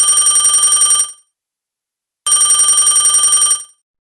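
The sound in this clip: An incoming call rings on a telephone line: two loud, bright warbling ring bursts, each lasting about a second, separated by a gap of silence, with no voices.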